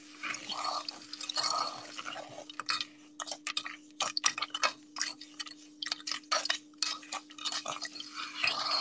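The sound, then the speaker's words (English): Ice being mixed into sand for ASMR: faint, irregular crunching, gritty scrapes and clicking ticks in many quick bursts, with a steady low hum underneath throughout. “now we'll mix the ice in the sand.”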